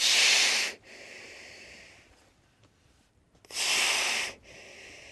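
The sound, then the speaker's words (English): An animal surfacing through a hole drilled in the ice breathes loudly through its nostrils, giving two strong hissing exhalations about three seconds apart. Each is followed by a softer breath, with a faint hiss between them. “a shiny black nose pokes just above the water. His nostrils open and close like rubber flaps.”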